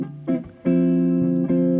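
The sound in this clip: Guitar chords voiced in D minor in a traditional jazz style: a few chords struck one after another, the later ones ringing out long and full, with no voices.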